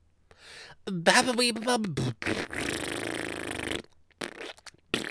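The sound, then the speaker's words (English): A person imitating a fart with their mouth: a wavering, falling voiced buzz gives way to a longer, noisy, raspberry-like blast, followed by a few shorter sputters. “Oh my god, I love doing those sounds when I was in elementary school. Those. You think I'm farting? No, that's my mouth.”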